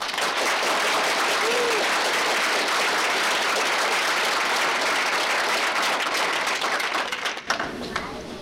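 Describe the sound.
An audience applauds to welcome two speakers: loud, dense, sustained clapping that holds steady for several seconds, then thins and fades near the end.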